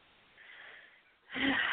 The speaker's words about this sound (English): Oh, okay, you coughing. Why are you clearing your throat?